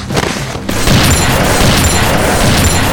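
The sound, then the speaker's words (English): Gunshots from weapons: a loud, deep boom gives way to a sustained, dense roar of firing that stays loud to the end. “The first two shots missed all of them by a meter.”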